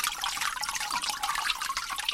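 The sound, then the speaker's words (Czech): Water drips and trickles off a freshly formed sheet of handmade paper during home papermaking. The patter is dense, continuous and fairly even, made of many tiny splashes with no voices over it. “Tak počkám, až mi to okapá.”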